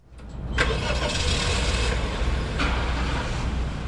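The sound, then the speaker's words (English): A natural gas-powered Honda Civic from a state vehicle fleet starts up: a brief crank catches into a steady, fairly loud engine rumble that runs evenly to the end, with no voices. “He's starting up one of the vehicles in the state fleet, a Honda Civic, but this one's powered by natural gas.”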